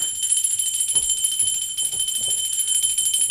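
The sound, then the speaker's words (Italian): A doorbell rung at length: a continuous, high-pitched electric ringing held steadily throughout, with faint low thuds underneath. “Suonai a lungo il campanello di Rosa”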